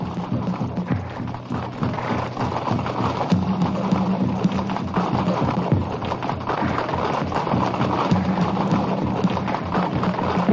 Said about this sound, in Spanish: Urtubia y Coquerel ven aproximarse entre la neblina a decenas de hombres a caballo.